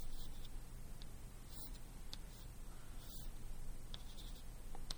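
A diagram being drawn on a board in a physics lecture: faint, brief squeaky strokes of the marker surface over a constant low hiss, with no voices.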